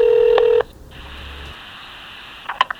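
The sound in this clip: A telephone dials to place a call: a loud, steady tone holds for about half a second and cuts off, then a quieter line hiss follows, ending with a couple of short keypad beeps.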